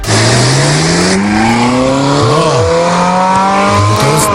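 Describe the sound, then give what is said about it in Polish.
A classic combustion-engined Ferrari sports car revs loudly, its engine note climbing steadily in pitch, briefly dipping and swelling, then rising again in strong, harmonically rich pulls. “i teraz zrobimy mały radiowy eksperyment, bo klasyczne Ferrari, to takie klasyczne, brzmi tak.”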